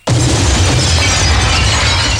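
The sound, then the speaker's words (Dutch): A paving stone smashes through a window with a sudden loud crash of shattering glass, which continues as a dense, noisy burst of breaking and falling debris for about two seconds. “Wat krijgen we nou? Wie gooit er nou een straattegel door het raam?”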